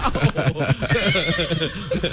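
A horse neighs in a shrill, quavering whinny, a rapid pulsing call that wavers in pitch and stays loud across the whole stretch.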